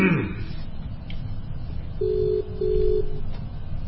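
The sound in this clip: Telephone ringing tone for an incoming call: a steady, mid-pitched tone in two short bursts separated by a brief gap, heard over a low rumbling background.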